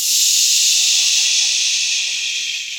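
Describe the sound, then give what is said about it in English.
A voice imitates air hissing out of a punctured bike tire: one loud, breathy, steady hiss lasting about three seconds that eases slightly toward the end. “Did I hit a snake? That was very loud. And I looked down. I was like, oh, that's not a snake. That's a hole in my tire.”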